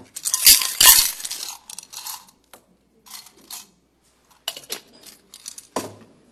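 The rattle and clink of drawing lots to pick the first roll-call voter in the Dutch parliament, with bright jingling bursts at first, then sparser clicks and chinks with no talk.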